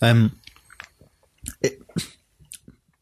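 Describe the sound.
Wet chewing of a small, soggy, greasy snack pork pie: soft, irregular squishy bites and mouth clicks follow a brief voice at the start.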